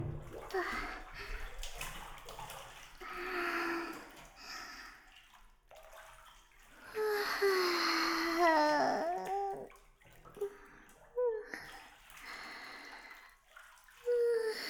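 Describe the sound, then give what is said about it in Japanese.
Water sloshes and splashes as people lower themselves into a hot bath, a soft watery rush that swells and fades in a few bursts, with brief vocal sounds in the middle. “それでは、私たちもお風呂に入らせていただきますね。”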